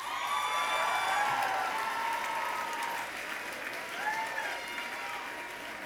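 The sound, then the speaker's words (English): Audience applause welcoming a band onto a stage, a sustained, dense clapping that holds steady and fairly loud for about six seconds before easing slightly toward the end. “Please give a warm welcome to Girly Man.”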